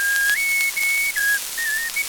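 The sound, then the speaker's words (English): A person whistles aboard an aeroplane in flight, a short tune of clear sustained notes that step up and down in pitch, with a steady hiss underneath. “Quit that whistling”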